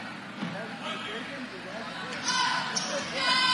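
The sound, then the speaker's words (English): A basketball is dribbled at the free-throw line before the shot during a game, with a few sharp bounces under a commentator's steady voice. “Dribbles the basketball, lets it fly.”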